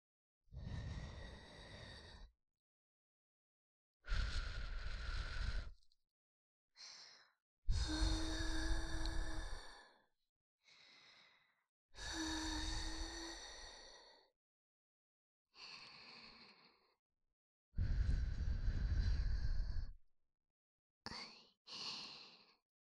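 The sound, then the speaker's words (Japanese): Soft breaths blown toward the listener in ASMR style come as a series of airy, gentle puffs. Quiet pauses separate them, and the bursts vary in length. “まずは息を吹きかけていきますね。”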